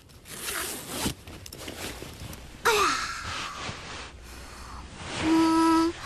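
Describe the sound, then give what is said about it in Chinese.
Unpacking a box: soft rustling and handling noises, a sharp scraping rip partway through, and a zipper drawn near the end, all fairly quiet. “开始拆箱。”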